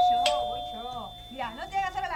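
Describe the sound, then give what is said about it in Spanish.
A doorbell rings insistently, holding a steady electronic tone throughout while people talk over it. “Ay, qué insistente con el timbre.”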